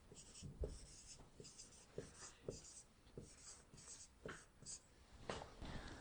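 Faint scratchy writing strokes as a Bible verse from Isaiah chapter 58 is written out, many short scrapes and taps in an irregular rhythm with brief pauses between words.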